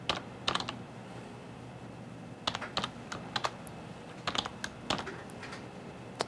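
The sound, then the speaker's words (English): A username is typed on a computer keyboard: light, clicking keystrokes come in quick bursts with short pauses between them, faint and alone. “And we'll type in our username.”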